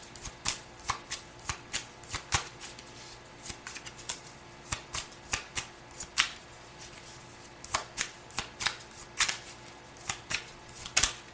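Playing cards are dealt at a table. Many crisp snapping flicks and slides come in an irregular rhythm, each short and sharp against a quiet background.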